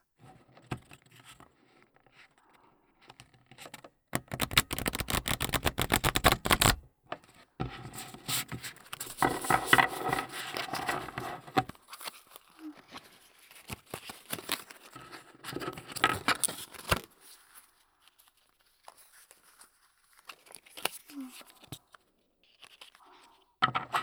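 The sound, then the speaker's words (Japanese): Playing cards being riffle shuffled: a dense, loud burst of rapid fluttering clicks, then longer stretches of crisp crackling and patter that thin out toward the end, with no talking. “最後はド派手なシャッフル。両耳でカードがしっかりと混ざるリフルシャッフルだよ。”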